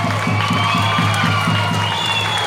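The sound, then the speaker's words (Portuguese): Clapping and cheering for teachers at a school event, a loud continuous crowd wash over a regular low thumping beat. “a quem aqui eu quero uma salva de palmas para todos os professores do Luzia Maia”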